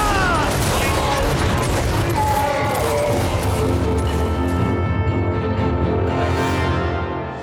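Volley of gunfire in an audio drama, loosed on a shouted order to fire and detonate a bomb: dense, sustained crackling shots and booms roll on without a break, then ease off near the end.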